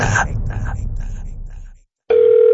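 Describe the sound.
A telephone ring tone: a steady, mid-pitched electronic tone that cuts in abruptly after a short silence and holds evenly to the end.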